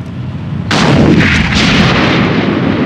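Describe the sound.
Heavy gunfire opens on the lead vehicle of a column with a tank and an armoured car: a sudden loud blast of fire breaks in, then a dense, sustained roar of shooting continues without pause to the end.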